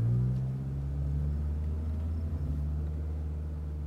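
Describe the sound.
Low, steady engine drone of a van on a road, a deep humming rumble holding at an even level with only slight wavering and no other sounds.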